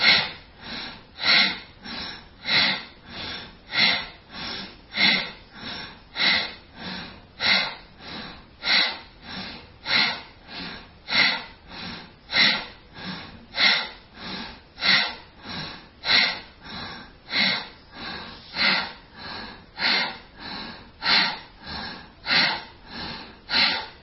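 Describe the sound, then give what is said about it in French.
Bhastrika, the forceful yogic breathing exercise, sounds as a long series of rapid, sharp, even breaths through the nose. The many pulses keep a steady, regular rhythm at constant loudness, with no speech. “quand vous devrez recommencer la série, ce sera directement dans le Bastrika, dès la première expiration.”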